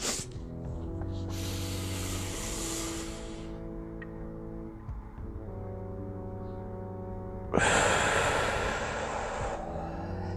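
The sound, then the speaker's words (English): Slow, deep breaths during a 4-7-8 breathing exercise hiss over a steady, low droning tone: a long breath of about two seconds, a quieter stretch, then a louder breath that carries on to the end. “Here we go. Four, seven, eight breaths.”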